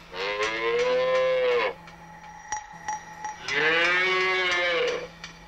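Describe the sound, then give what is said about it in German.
Cattle mooing in a barn, young heifers not yet giving milk: two long, loud, drawn-out moos with a brief pause between them, over a faint steady background hum. “Hier sehen Sie vier Rinder.”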